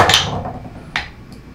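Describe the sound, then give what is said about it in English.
A 20-sided die rolled during a tabletop game: a few sharp, hard clattering knocks, the first loudest, then separate lighter hits later with quiet between. “So either you roll a 20-sided dice. That's roll 17 and under.”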